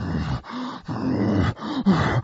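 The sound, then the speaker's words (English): A hunter imitates an excited bull's pant: five rough, throaty, groaning breaths in a quick, steady rhythm with short gaps between them. The calls are fairly loud and heard alone. “You can have a cow right there and use a pant. It only denotes excitement on the bull's part. And so you'll hear him just give those,”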